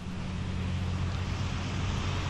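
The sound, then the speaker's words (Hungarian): Strong stormy wind from a cold front batters the microphone outdoors near Felsőzsolca in north-east Hungary, making a steady, dense roar of rushing noise with a low rumble underneath and no voices. “Jól látszik, hogy beszélni is alig lehet ebben a szélben.”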